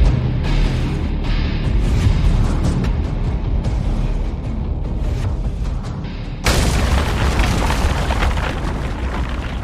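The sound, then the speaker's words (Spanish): A wooden club smashes into a stone floor with one sudden heavy boom that cuts in over a continuous rumbling bed and leaves a loud, sustained roar behind it. “El garrote descendió con fuerza donde el joven había estado segundos antes. El arma se estrelló contra el suelo e hizo volar esquirlas de piedra en todas direcciones.”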